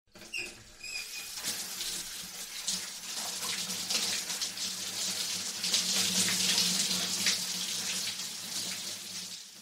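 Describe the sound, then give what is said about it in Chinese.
Warm shower water rinsing a body: a steady, bright hissing spray with soft patter that runs continuously and grows slightly fuller midway, with no voices. “替你冲洗身子。 感觉舒服吗？温暖的热水使身心都不断的放松呢。”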